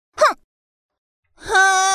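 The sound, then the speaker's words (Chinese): A toy robot's voice imitates crying: a short, falling sob, then a pause, then a long, sustained wailing tone. “你叫我哭，我哭了”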